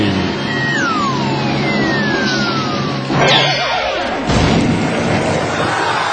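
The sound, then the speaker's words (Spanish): Cannon firing a man out of its barrel in a comedy show: a long falling whistle over a constant noisy background, followed by two heavy booming thuds. “aún falta ver cómo desde ese cañón sale disparado el autor del Código Da Vinci.”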